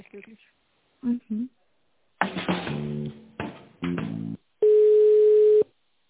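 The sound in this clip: A telephone call tone sounds while a business call is being placed: one steady, loud, mid-pitched tone lasting about a second, after several short bursts of other sound.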